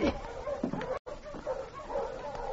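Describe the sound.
A dog gives a few short, sharp barks mixed with whimpering yips, in quick uneven bursts split by a brief silent break.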